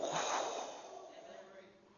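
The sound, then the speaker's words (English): A speaker blows a soft, breathy exhale of air, a faint hissing puff that tapers away over about two seconds. “And he blows a little breath of life into you.”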